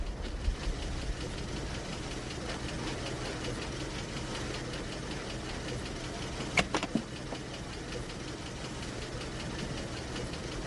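Car engine idling before a ride: a steady low rumble that holds evenly throughout, with a couple of brief clicks near the middle.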